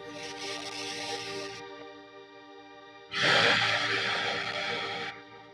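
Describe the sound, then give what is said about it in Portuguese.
A deep, long inhale through the nose during a guided breathing and spine-stretching relaxation exercise: one loud, airy breath lasting about two seconds over a steady sustained musical drone. “Puxa bastante ar pelo nariz.”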